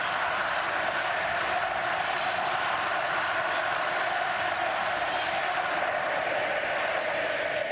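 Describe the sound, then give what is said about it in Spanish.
A stadium crowd at a Chivas football match in Estadio Jalisco, Guadalajara, produces a continuous dense roar, an even wash of many voices that stays loud and steady throughout. “Y así se manifiesta el público en el Jalisco.”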